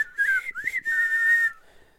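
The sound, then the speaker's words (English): Whistling of a march tune, a clear melodic line of a few notes that rise and fall, held steadily before trailing off into faint background. “Can you whistle with us? No, I can't whistle.”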